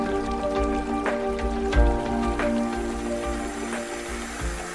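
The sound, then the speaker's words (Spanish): Water runs from a tap while hands are soaped, with a continuous splashing stream and scattered drip-like spatters throughout. “No dejes correr el agua al enjabonar tus manos.”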